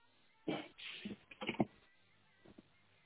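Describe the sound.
Typing an email on a computer keyboard: a quick burst of soft key clicks, a short pause, then a couple more taps, all fairly faint.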